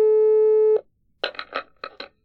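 A steady, humming telephone line tone from a phone being used for a local call holds for under a second and cuts off, followed by a short series of clattering clicks.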